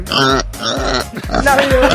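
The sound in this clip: A pig grunts and oinks in several loud, low, throaty bursts, one after another with little pause between them.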